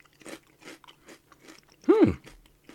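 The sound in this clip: Salt and vinegar crisps being crunched, one loud bite near the end following quieter mouth sounds and faint talk.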